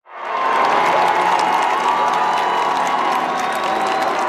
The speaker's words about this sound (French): Le pape Léon XIV, encore une fois, acclamé.